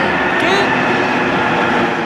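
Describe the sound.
Loud subway train, a steady, dense roar and rumble that fills the whole stretch without break or pause.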